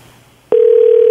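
A ringback tone on an outgoing phone call starts after a brief quiet moment, then holds as one loud, steady, unbroken tone to the end.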